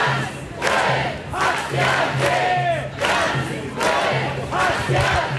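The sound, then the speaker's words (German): Demonstrators crowd a Cologne street, about 9,000 strong, protesting the AfD election win in Saxony-Anhalt. Their loud, continuous roar of massed voices swells and dips in repeated waves of shouting. “Richtig viele Leute sind auf die Straße gegangen. Laut Polizei sollen es rund 9000 gewesen sein. Die Veranstalter sprechen von deutlich mehr und alle haben sie gegen den Wahlsieg der AfD in Sachsen-Anhalt demonstriert.”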